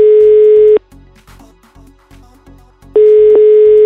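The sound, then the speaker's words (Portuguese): A telephone tone while a call is being placed. A loud, steady electronic tone breaks off into a run of short, low, evenly spaced pulses, then the steady tone returns. “Então vamos ligar. Vá. Vamos lá, ligar pra Bruna. É hora de ligar.”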